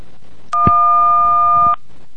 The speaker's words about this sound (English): Alright, that's not working out too well, so what we're going to do... I was trying to pass DTMF through the microphone,